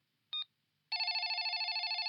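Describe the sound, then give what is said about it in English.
Electronic telephone ringing while a call connects by speed dial: one short beep, a brief pause, then a steady warbling ring tone that runs to the end. “One moment while I use our speed dial to connect with Professor Merle.”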